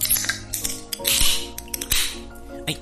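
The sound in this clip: Glasses clink in a toast between people meeting for drinks, giving a few light, faint clinks with brief ringing tones amid soft clatter.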